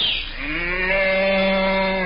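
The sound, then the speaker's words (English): A cow moos once: a long, low, steady call that stays strong for about two seconds, with no other sounds around it. “could you change yourself into a, say, a nice fat old cow? Nothing to it. Watch.”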